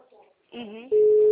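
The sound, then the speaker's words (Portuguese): Ringback tone of an outgoing phone call: a steady, loud, unbroken tone that starts after a brief stretch of voice and holds to the end. “Eu vou ligar para ele, porque o menino não respondeu, ele deve estar dormindo.”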